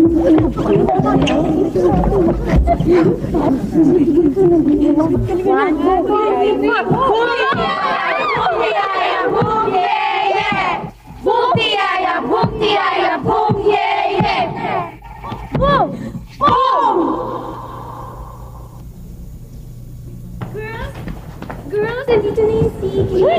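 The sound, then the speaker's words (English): A school cheering squad from Section 7 chants and shouts in unison, many loud voices in energetic bursts over a low steady hum, dropping to a quieter stretch near the end. “From Section 7, the PHB cheering squad.”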